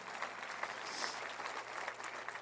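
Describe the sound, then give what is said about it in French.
Audience applause from a church audience: faint, dense, steady clapping that continues evenly throughout without any voices. “Au nom de Jésus, qu'on peut applaudir une communauté de générosité.”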